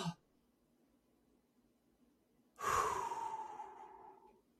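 A person breathes in one long, airy, audible breath that rushes for almost two seconds and then trails off softly. A brief faint sound comes before it, with near silence in between.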